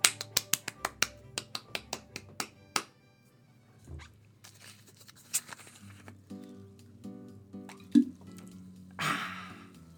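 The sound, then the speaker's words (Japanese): Sparkling water fizzing and dripping as it is poured for a toast: a rapid run of many sharp, crisp pops and drips that thin out into sparser clicks, then a short hissing burst near the end. “シャンパンじゃないけど今スパークリングウォーターで乾杯”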